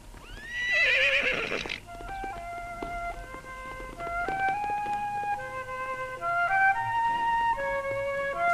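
A horse gives one loud, shrill neigh near the start, followed by steady galloping hoofbeats as riders chase each other on a black horse and a white horse.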